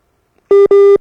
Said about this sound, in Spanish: Ahí se cortó un poquito la llamada. Son los tonitos que siempre nos alertan de eso.